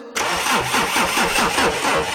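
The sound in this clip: A car engine cranks and starts as a radio station jingle effect, with loud, rapid rhythmic starter pulses running steadily under a bright, full-band roar.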